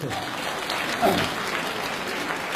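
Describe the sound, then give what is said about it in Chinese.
Audience applause at a televised talent competition stage, a dense, steady wash of clapping that fills the whole clip and swells briefly near the middle. “更应该感谢的是我们热情的观众给我们这么好的掌声”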